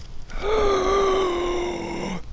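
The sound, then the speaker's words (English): A long voiced gasp of surprise as someone spots something hiding under a stick on a bank, one sustained breathy tone that holds steady and dips slightly as it ends. “Sharp intake of breath.”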